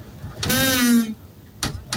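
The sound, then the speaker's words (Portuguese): Strong wind gusts roar at a tenth-floor apartment window in Copacabana: a loud, buzzing, horn-like drone with rich harmonics lasting under a second, followed by two shorter bursts of rushing noise. “Isso é vento, cara. Que situação, meu amigo. Parece aquela vuvuzela da Copa do Mundo. Mas isso é vento, mano.”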